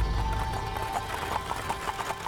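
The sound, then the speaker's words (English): Clip-clopping hooves of a horse pulling a wagon along Wall Street in New York City, many quick steady hoofbeats over a constant low rumble and a faint steady hum. “a horse-drawn wagon bounced along New York City's Wall Street”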